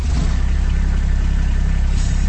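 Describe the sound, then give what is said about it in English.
A Kubota RTV utility vehicle's engine idles in a steady, even low throb under a constant mid-range rumble. It stays at one level the whole time, with no voices. “That's the sound of a Kubota RTV utility vehicle.”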